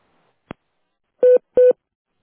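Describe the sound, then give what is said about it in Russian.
Voicemail beeps marking the start of a message: a faint click, then two short, steady mid-pitched electronic tones in quick succession, with no voices. “Можете оставить сообщение после сигнала.”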